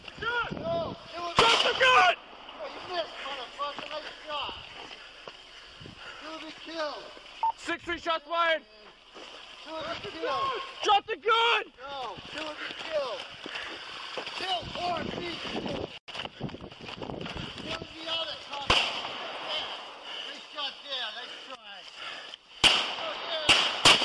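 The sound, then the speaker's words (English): Gunshots in police body-camera footage of an officer encounter with a 45-year-old man who pulls a gun: a few sharp, abrupt bangs scattered among shouting voices and radio-like chatter. “Shots fired.”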